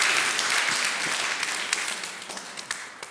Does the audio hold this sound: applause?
yes